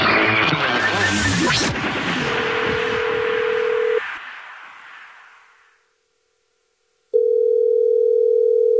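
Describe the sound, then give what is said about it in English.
A telephone call being placed: a loud noisy opening gives way to a steady electronic tone that stops and fades into silence, then a second steady tone begins and holds. “This is the Jubal Show, and you texted in at 41061 that you have a dirty little secret, so we're calling you back.”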